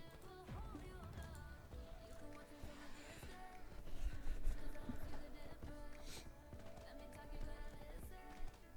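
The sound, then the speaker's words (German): Faint, dense clopping of horse hooves as a character rides down into a new elf region in a video game, steady throughout and mixed with other soft game sounds. “So, jetzt reiten wir runter ins neue Elfengebiet.”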